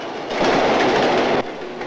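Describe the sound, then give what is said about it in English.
An elevated L train rattles along at dusk in a steady, loud rumble of clattering wheels and rail noise that eases slightly near the end. “The L train rattles along in the dusk.”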